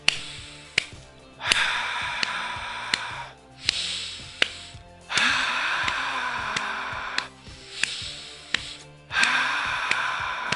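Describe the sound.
Breath sounds from a paced breathing exercise, short inhales and longer exhales, rise and fall in a steady rhythm of several breaths separated by brief pauses, with sharp ticks between them.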